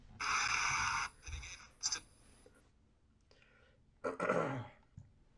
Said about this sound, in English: Oh, I'm constantly clearing out my fucking throat.